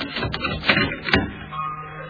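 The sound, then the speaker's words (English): A door bolt is slid shut, heard as a few short scraping, clunking bursts of metal on metal, each fading quickly and ending in a quieter, steady tail. “Bolt the door, bolt the door.”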